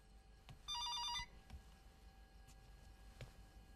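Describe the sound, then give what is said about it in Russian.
A telephone rings at home in one short, loud burst of bright electronic trilling that stops abruptly, leaving a quiet background. “Звонит телефон дома.”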